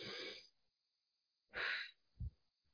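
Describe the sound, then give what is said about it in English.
A person takes a deep breath: a few soft, breathy bursts of air separated by silence, faint and alone. “And I'm going to take a deep breath.”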